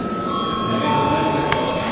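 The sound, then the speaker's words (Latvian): A chairman's bell rings during a parliament session just before a vote, a steady, continuous metallic ringing held at an even level through the whole moment. “Lūdzu zvanu.”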